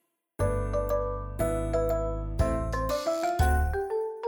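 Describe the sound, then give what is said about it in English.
Bright chime tones ring out one after another as a signal to turn the page, each struck note clear and ringing, with later notes coming faster and stepping upward in pitch. “When you hear this sound, turn the page.”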